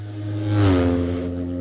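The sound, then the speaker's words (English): A racing sidecar outfit with a 750 BMW engine in an MRE frame roars past, its loud, steady engine note dropping sharply in pitch as it goes by, then droning on. “They go through on their 750 MRE frame BMW.”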